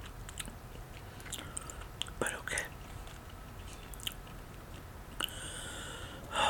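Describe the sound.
Chewing an earwax-flavoured jelly bean: faint, soft, wet mouth clicks and a few small crunching bursts over a low steady hiss, with no talking.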